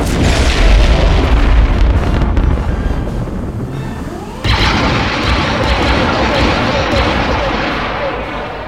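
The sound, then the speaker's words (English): Turbolaser volley firing and exploding in a space battle: a deep, loud boom with heavy rumbling, then a second sharp burst about midway, bright and crackling, slowly fading away. “They've jumped, which means our turbo laser volley is going to hit.”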